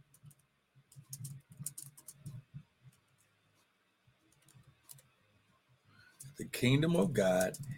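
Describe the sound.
Soft, faint typing on a keyboard, scattered light clicks and taps before a man starts speaking.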